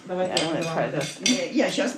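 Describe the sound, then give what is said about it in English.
Syrniki dough of egg yolk, rice and wheat flour, vanilla sugar and orange zest is mixed by hand in a home kitchen in Kyiv. Utensils and a bowl clink and clatter in a busy, irregular stream. “rice flour, wheat flour, vanilla sugar, skin of orange. And he mixes by hand.”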